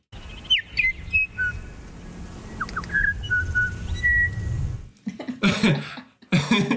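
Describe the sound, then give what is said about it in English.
Female bellbirds on Burgess Island sing a musical song of clear, tonal, piping whistled notes in short phrases over a low background murmur. A few loud, harsh bursts like coughing follow at the end. “So just some examples of how musical bellbird song can be. This is on Burgess Island, where the females all sing something that's vaguely related to happy birthday kind of sound.”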